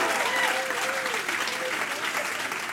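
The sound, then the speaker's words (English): Applause from a church audience welcoming viewers at other campuses: a dense, steady wash of clapping that fills the whole clip, with a voice faintly audible over it. “Can we give a warm welcome to all the beautiful people in Butler right now that are watching us? And also a huge welcome to all the incredible family in Canning Vale right now. Give them a big hand as well.”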